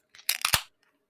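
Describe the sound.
A can of 8.1% beer being cracked open: a quick burst of sharp snapping and fizzing noise lasting about half a second, then near silence.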